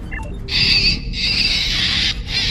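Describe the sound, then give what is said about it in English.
Terrible screeching sound played back from a cassette tape, a loud, shrill, sustained squeal in a few long stretches split by brief breaks, with no voices. “dropped a cassette into their player, and then went on its way. So Kim hits play, and it sounds like this terrible screeching sound. Want to hear the most annoying sound in the world?”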